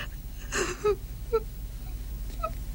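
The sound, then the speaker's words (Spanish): A young woman crying in her bedroom, with soft, broken whimpers and catching, gasping breaths. A few short tonal sobs stand out over a quiet background. “Tiempo después, Sita llora en su dormitorio.”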